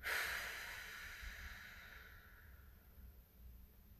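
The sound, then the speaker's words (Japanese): Slow, steady exhale during a voice warm-up breathing exercise: a single breathy outflow of air, strongest at the start and gradually tapering off over a few seconds, with no talking. “吸って、吸う時も腰を反ったりしない姿勢まっすぐです。吐きます。”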